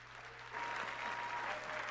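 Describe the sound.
Audience applause welcoming a speaker at an evening Center for Arizona Policy event: a faint, dense patter of many hands that swells after a quiet start and then holds steady.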